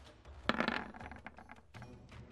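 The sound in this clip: Dice clatter across a table during a tabletop role-playing game: a sharp burst of hard rattling, then several lighter clicks as they settle, with no talk.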